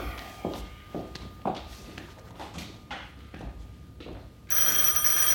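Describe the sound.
A telephone bell rings loudly and abruptly in a radio drama, coming in after a stretch of soft, uneven footsteps and shuffling. It carries a bright, sustained metallic ring that continues to the end.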